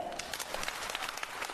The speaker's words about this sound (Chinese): 上台这几句话，全场报以热烈的掌声。